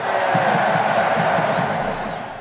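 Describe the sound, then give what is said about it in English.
A live audience lets out a big cheer: a dense, continuous wash of shouting and whooping that stays loud and steady throughout and eases slightly at the very end. “That was ready for Ben, that big cheer.”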